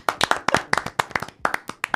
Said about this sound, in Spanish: Un aplauso para vosotros.